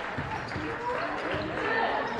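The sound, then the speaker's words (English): Basketball dribbled on a court in the closing seconds of a game, a few dull bounces half-buried under loud, steady crowd noise. “And McDonald content to try and dribble this one out as Lau reaching in”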